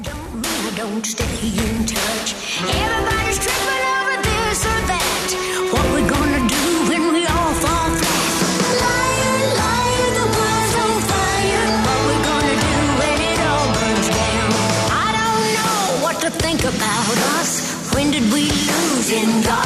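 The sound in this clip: A rock and roll song by a country singer joined by many guest performers: loud, dense band backing with driving percussion, and a sung melody rising over it in the second half.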